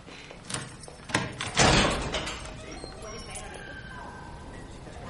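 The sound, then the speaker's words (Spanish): A door opened by a nurse in a room of a psychiatric ward: a few short clunks and knocks, then a heavier thud in the middle before the sound settles into a quieter tail. “Una enfermera abre la puerta.”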